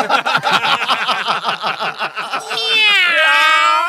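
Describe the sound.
A person imitates a cat meowing: quick, choppy vocal bursts give way to a drawn-out, wavering, high meow that bends in pitch near the end.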